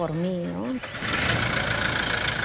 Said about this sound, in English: To be even closer to his people, Bishop Prevost purchased this 4x4 vehicle early in his time in Chiclayo.